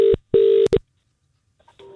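Telephone keypad tones sound as a call is dialled: three beeping bursts, the middle one longest, then a pause and a few faint tones at the end.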